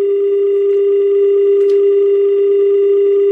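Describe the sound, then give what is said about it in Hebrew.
A telephone tone sounds while someone tries to dial a call: a loud, continuous, steady mid-pitched tone with no breaks, and a faint click partway through, with no voices. “בואו אנחנו מנסים לחייג למישהו”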